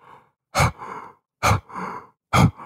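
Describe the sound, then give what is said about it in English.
Heavy huffing breaths blown through a bugle call tube used to call bulls: three sharp, forceful puffs, each followed by a softer, drawn-out breath, loud and alone with silence between. “Another sound that I make that's not even a bugle is through the bugle tube, huffing and breathing really heavy.”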